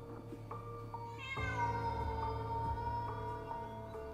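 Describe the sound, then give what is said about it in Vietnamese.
A black cat in a cornfield gives one long, drawn-out meow with a rising, high start that holds steady and fades slowly. The sound is faint and stands alone, with no voices. “Tiếng mèo kêu ở đâu đây văng vẳng. Có lẽ là con mèo đen lúc nãy.”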